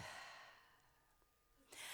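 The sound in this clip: A deep breath drawn in and let out, soft and airy with a gentle breathy hiss at both ends and a quiet lull between, with no talk.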